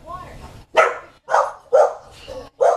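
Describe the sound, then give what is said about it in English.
A dog barks in a quick run of sharp, punchy woofs with short gaps between them. The barks are loud, clear and heard alone, each one a bright, abrupt burst. “That's not a dog in a movie. So if you don't have a dog barking in your movie, it's because you don't have the special edition.”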